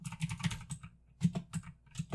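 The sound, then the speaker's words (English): Typing on a computer keyboard, rendered as faint, rapid key clicks in two irregular bursts separated by a brief pause, with no talking. “I need to learn how to type.”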